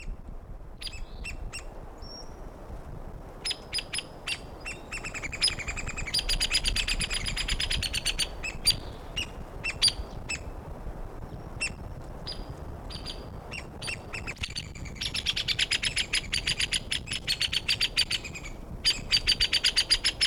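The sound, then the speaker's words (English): Woodpecker pair calling near a probable nest site, the male giving loud high notes and the female low-pitched ones. Many sharp calls come in irregular clusters, densest in two busy stretches, with no talking. “woodpecker number one recorded near probable nest site. Males giving the loud notes, female nearby giving the low pitched notes.”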